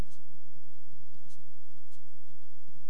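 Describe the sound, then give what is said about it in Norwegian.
Pen scratching on paper as someone writes a word by hand for a school assignment, faint light strokes with a few brief scrapes over a low steady hum. “så da skriver jeg samarbeid”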